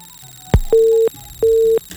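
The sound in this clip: A telephone tone plays as a call is placed to a listener: a short click, then two identical steady beeps of the same mid pitch with a brief gap between them, loud and clear over a quiet line.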